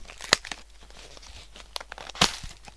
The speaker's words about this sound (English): This is the sound of chocolate being opened.